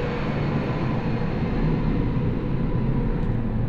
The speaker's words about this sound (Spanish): Espérate, espérate, espérate, que va pasando un avión y no te...